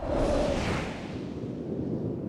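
A whoosh sound effect plays alone: a broad, airy rush of noise lasting about two seconds. It is brightest at the start, then dulls slightly and holds steady to the end.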